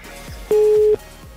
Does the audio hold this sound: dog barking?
no